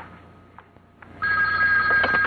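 A telephone rings. After a quiet moment the bright, trilling ring starts suddenly and carries on loud and unbroken to the end.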